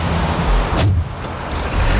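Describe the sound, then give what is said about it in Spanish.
Diesel car engine rumbling steadily as it starts, with a low, even drone throughout and a couple of brief sharp transients partway through. “Y se arranca. Eso no es eléctrico.”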